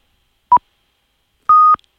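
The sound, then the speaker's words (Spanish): A radio hourly time signal sounds alone: a short pure beep, a pause, then a longer, slightly higher beep, both clean and loud. “pues venga, ya, suena las señales horarias.”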